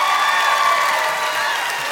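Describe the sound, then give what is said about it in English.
Crowd applause: a steady, dense wash of many hands clapping that holds at an even level for the whole stretch. “I know you got a few claps. I know you got some claps out here”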